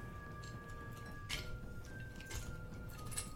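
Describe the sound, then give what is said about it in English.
Dice rolled during a tabletop role-playing game, giving a few faint, sharp clicks and clatters over a quiet background. “And I will use an inspo dice on this as well.”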